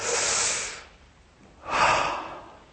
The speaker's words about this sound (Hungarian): Nagy levegőt véve.